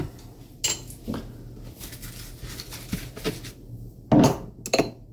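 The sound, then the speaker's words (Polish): A spoon scoops half a teaspoon of sugar from a sugar bowl in a kitchen: a few light clinks and taps of metal on ceramic, with one louder clatter near the end, over a steady low hum. “No i teraz jeszcze trzeba dodać pół łyżeczki cukru.”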